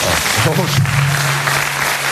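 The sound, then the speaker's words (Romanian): Audience applause at a stand-up comedy show of over a hundred people, a steady wash of clapping with a voice over it, brief and fairly loud. “Și să aplaudi cei care sunt foarte dezamăgiți de Nicușor.”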